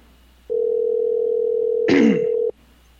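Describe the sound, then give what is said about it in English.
Telephone line being dialed: a steady, buzzing dial tone holds for about two seconds, broken near its end by a brief crackling click, then cuts off. “Let's see if we can get him on the phone. All right, so dial it up.”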